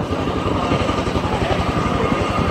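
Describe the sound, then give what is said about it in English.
Chinook helicopter flying in at an air display with a Jeep and trailer slung underneath, its rotors beating out a rapid, steady, loud chopping pulse throughout. “And here comes a Chinook carrying nothing less than a Jeep underneath it.”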